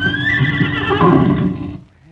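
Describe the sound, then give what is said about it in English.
A horse neighs in one loud, wavering whinny lasting under two seconds, starting high and strained, then turning rougher before trailing off. “Here's our horse. Ain't he beautiful?”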